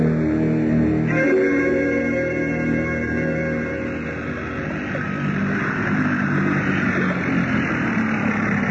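A motorboat's engine runs with a loud, continuous, low droning rumble and broad wash of noise, holding steady throughout with no voices.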